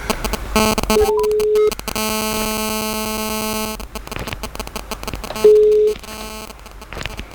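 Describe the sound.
A telephone ringing tone plays while an outgoing call connects, a buzzy electronic tone that sounds in a few separate bursts broken by gaps, the longest held steady for nearly two seconds, with a shorter pure beep before it and after it.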